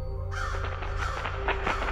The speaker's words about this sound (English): Crows scatter in a flapping black cloud, cawing their disapproval at me.